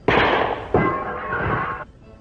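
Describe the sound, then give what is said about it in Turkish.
Two sharp bangs from a clown's cap pistol fired in a Turkish radio drama, the second coming soon after the first, each followed by a sustained noisy rush that lingers for over a second before cutting off. “O tabancayı üstüme tutma sayın gazeteci. Korkmayın komiserim. Palyaço tabancası o. Kapsül atar. Bakın.”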